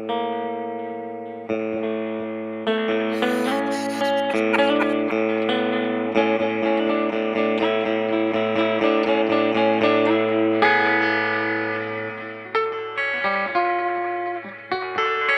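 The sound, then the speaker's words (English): An electric guitar played through a Meris Enzo effects pedal rings out in sustained, layered, synth-like tones. Chords and notes shift every second or so, with a run of quicker picked notes near the end. No voices are heard. “Is it one of my pedals? It is. It's a red panda. It is not. What? This one is the Meris Enzo pedal.”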